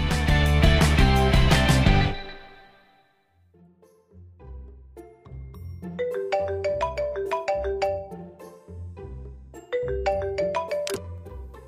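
A phone ringtone for an incoming call. A loud, dense electronic burst fades out, then a bright, melodic chiming tune plays in repeating phrases at a steady level, with no talk.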